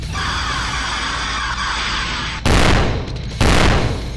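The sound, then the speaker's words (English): Giant monster's eye lasers firing, a sustained harsh hissing roar followed by two sudden, louder noisy blasts in quick succession. “The eye lasers are charged. It's better than nothing. Fire!”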